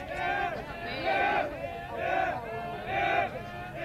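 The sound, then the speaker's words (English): Fans in the stands at a high school baseball game between Shelbyville and Stewarts Creek chant together in a steady rhythm, the Stewarts Creek crowd's voices swelling in four regular waves. “Well, they got a chant going over there in the Stewarts Creek.”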